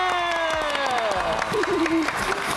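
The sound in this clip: An audience at an award ceremony claps and cheers, with raised voices riding over a busy layer of hand claps that grows slightly fuller toward the end.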